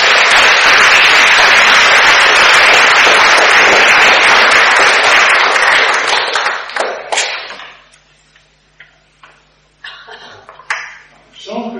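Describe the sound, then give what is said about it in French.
Loud, sustained audience applause at the close of a talk fills about seven seconds, then dies away into scattered claps, taps and small noises. “Voilà, applaudissements.”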